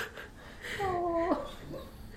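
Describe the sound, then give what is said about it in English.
A sleeping dog whimpers while dreaming: one faint, drawn-out high whine of about half a second, rising sharply at the end, over a quiet background. “The dog's having a dream.”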